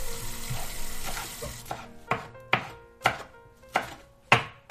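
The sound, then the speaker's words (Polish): A knife chopping food for soup, with sharp, evenly spaced knocks that grow clearer and louder after a noisier, softer start, sounding alone without talk. “Kroję i kroję. Długo, to fakt.”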